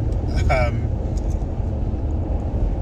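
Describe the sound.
A car driving on the road during a drive home: a steady low engine and road rumble fills the whole stretch, with a brief voice heard over it near the start.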